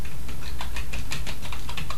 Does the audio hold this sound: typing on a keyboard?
yes